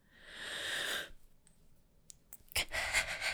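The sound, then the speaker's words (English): A person takes a deep breath in, heard as a soft, breathy rush lasting about a second, followed by near silence and then a second breathy burst toward the end. “That was me getting a good breath in.”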